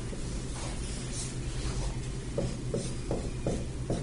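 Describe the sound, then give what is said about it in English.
Marker squeaking and scratching on a board while a square split by a line down the middle is drawn. Faint strokes sound over a steady background hiss. “I'm drawing on the board a square divided by a line down the middle.”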